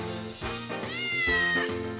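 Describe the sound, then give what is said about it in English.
A black and white cat meowing, a drawn-out, high, tonal meow that swells and then fades, fairly loud and heard alone. “It's a cat! Yay! A black and white cat!”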